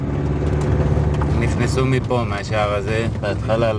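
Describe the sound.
A car drives through a kibbutz with a steady low engine and road hum throughout, while voices talk over it.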